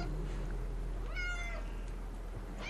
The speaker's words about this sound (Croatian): osluškujem mačke koje zvuče kao da se kolju.